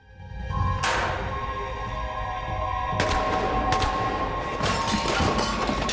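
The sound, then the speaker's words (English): Gunshots fired through a hatch cut into a front door: a few sharp, broad bangs punctuating a loud, steady rushing background. “Three shots.”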